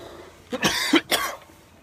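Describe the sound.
A few harsh, hacking coughs from a tickle in the throat, coming in quick succession, with a stronger middle burst and a final cough before quiet returns.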